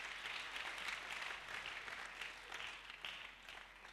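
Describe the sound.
Church audience applauding during a worship service, a faint but steady wash of many hands clapping together, without clear pauses.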